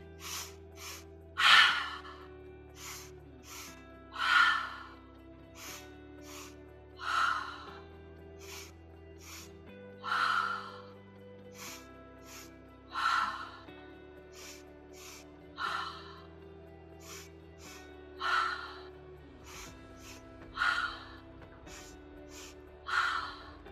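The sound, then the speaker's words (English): Breath-of-fire breathing exercise: about ten sharp, forceful breaths in a steady rhythm, roughly two seconds apart, with fainter quick breaths between them, over a sustained, shifting musical drone. “of fire breathing, bringing a lot of oxygen into the body. Inhale and exhale completely to begin.”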